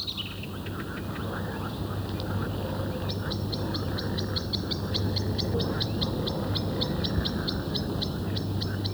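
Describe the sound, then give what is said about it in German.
A blackbird sings in a clipped, broken way in spring. Many short, high, evenly spaced notes run in a steady series over a constant low hum. “Zuweilen hört man im Frühjahr eine Amsel auch etwas abgehackt singen.”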